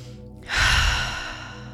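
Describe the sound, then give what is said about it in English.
A deep breath during a guided meditation: a faint in-breath through the nose, then a long, airy out-breath through the mouth that swells and slowly fades. “just taking a deep breath in through the nose and out through the mouth.”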